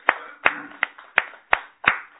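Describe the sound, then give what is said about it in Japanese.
Hand clapping to celebrate a child's fourth birthday at a morning church service: six sharp, evenly spaced claps in a steady rhythm, each decaying quickly before the next. “もっくんが4歳の誕生日を迎えましたので、盛大な拍手でお願いします。”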